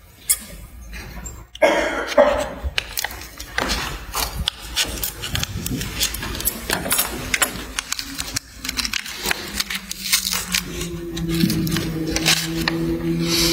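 Rustling, rubbing and handling noises come from an evidence package being opened in a courtroom to reveal an unfired red Federal 12 gauge shotgun shell. Many scraping and crinkling sounds follow one another, with a low, steady tone appearing near the end.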